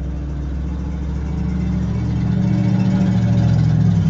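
A truck passes by with a steady, low engine drone that swells gradually in loudness over a few seconds.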